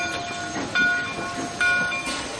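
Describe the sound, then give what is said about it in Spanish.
A train pulling away from a station sounds steady rolling rumble and hiss, with two short, high, sustained horn or whistle blasts standing out partway through; no voices are heard. “El tren se pone en marcha y Eta”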